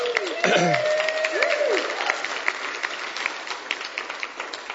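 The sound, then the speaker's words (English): A church audience applauds its worship teams. Dense clapping is steady at first and slowly fades, with a brief tonal sweep near the start. “And I think we should just give a big round of applause for all of our worship teams right now”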